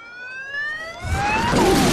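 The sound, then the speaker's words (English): Police car sirens wail as the cars head toward a scene, tones climbing in pitch, with a loud, broad roar of traffic swelling in beneath them during the second half. “As police cars head towards the scene”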